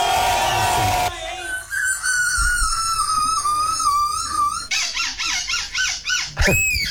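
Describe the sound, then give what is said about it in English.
Human voices imitate seagull calls one after another: a long wavering whistled cry, then a run of short rhythmic squawking yelps, and a final high-pitched cry, after a noisy burst at the start. “This is human beings doing seagull noises, impersonations.”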